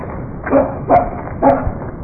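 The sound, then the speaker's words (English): A dog barks three times at something in the bushes. The barks are sharp and evenly spaced, standing out over a low, rough background. “I'm more interested in what he's barking at in those bushes.”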